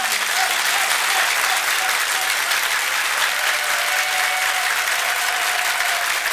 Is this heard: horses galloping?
no